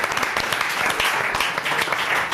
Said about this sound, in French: On peut applaudir, monsieur. Bravo.